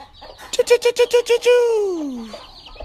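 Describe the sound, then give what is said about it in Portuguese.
Free-range chickens with newly hatched chicks, clucking in a quick run of seven short, evenly spaced clucks followed by one longer call that slides down in pitch and fades. “Olha os novinhos que nasceu aí, olha os pintinhos novos.”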